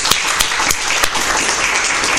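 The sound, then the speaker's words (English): Audience applause at a conference, given after a guest is introduced: dense, steady clapping from a crowd, loud and continuous, with a few sharper claps standing out. No one speaks over it. “I think we should give him a round of applause.”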